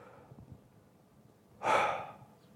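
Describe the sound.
A single deep breath demonstrated as a calming technique for dealing with anger, a brief breathy rush of air that swells and fades after a stretch of quiet low rumble.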